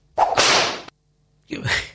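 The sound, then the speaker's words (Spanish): Radio time signal for one in the afternoon that sounds like a whip crack: two sharp, swishing whip-like cracks, the second coming after a brief silence. “Ahí está el top. ¿Le está pegando? El top. Le están pegando con un látigo. Es un top violento este.”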